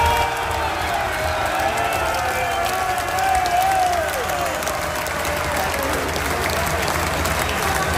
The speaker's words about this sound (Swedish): Ja, så här lät det igår på Kuppistadion när, alltså i och för sig Inter hade tagit guld mot turkiska Başak Şehir. Eller visst var det då precis när matchen blåstes av,